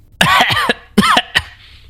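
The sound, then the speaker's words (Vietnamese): A man coughs violently and dryly in a quick series of harsh, rasping bursts. The coughs are loud and heard alone, with a short pause between them. “Trường Hàn ho khan dữ dội, máu đỏ đen phun ra khóe môi.”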